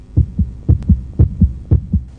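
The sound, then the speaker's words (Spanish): Heartbeat sound effect with four lub-dub pairs of deep, booming thumps in a steady, fairly quick rhythm. The beats are loud and stand alone with no voices. “Y cuentan que los latidos de su corazón son tan fuertes que hasta San Pedro en el cielo logra escucharlo.”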